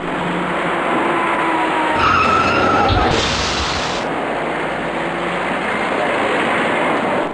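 Tyre skidding and a dull impact as cars brake hard at a city intersection and a taxi rear-ends a stopped white car in a three-car pile-up, heard over loud, steady traffic noise.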